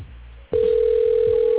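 A telephone dial tone while a call is placed: a click, then a loud, steady single-pitch tone that holds unbroken to the end over a faint low hum.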